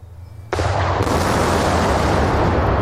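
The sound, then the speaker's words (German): Explosive demolition of a damaged motorway bridge in Lüdenscheid, Germany: a sudden loud blast, a sharp second crack moments later, then a dense, sustained roar of collapsing debris. “Ja, so klang das im Mai 2023, als die Rame de Tal-Brücke gesprengt worden ist.”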